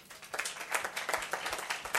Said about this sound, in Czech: Gratulujeme, potlesk.